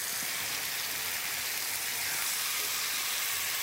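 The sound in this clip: Meat seasoned with rosemary sears in a hot pan, giving a loud, continuous sizzling hiss that holds steady without pauses or talking.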